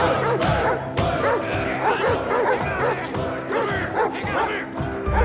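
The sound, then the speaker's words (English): Two dogs bark ferociously while straining against their leashes at a fight ring, a dense, loud, continuous stream of overlapping barks and yelps. “Then he looks at Jocko and Scratch, straining against their leashes and barking ferociously.”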